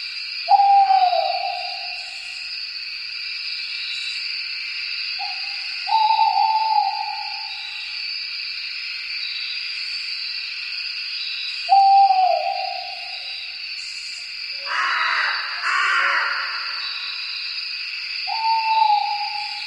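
Owl hoots, each a short call sliding down in pitch, repeated a few times with long gaps, over a steady high buzzing hiss that runs the whole way through.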